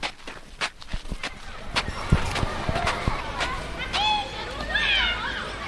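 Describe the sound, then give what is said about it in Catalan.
Footsteps of people walking outdoors on the northern edge of a town in the Vallès, heading toward open land: many soft irregular steps over a steady outdoor background, with faint indistinct voices. “Doncs vinga, anem-hi, tot caminant? Som-hi.”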